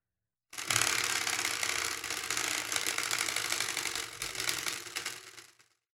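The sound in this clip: A spinning wheel clicks as it turns: a dense, rapid ratcheting of ticks for about five seconds that fades out at the end.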